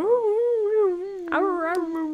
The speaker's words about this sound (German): es kann sein, dass sie gleich ein bisschen anfängt zu träumen und dann hört man wahrscheinlich ein bisschen wuff, wuff.